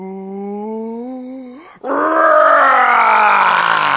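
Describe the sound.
A human voice imitates a dragon's fiery breath: a low, drawn-out groan rising slightly in pitch, a brief break, then a loud, rough, breathy roar that holds steady to the end.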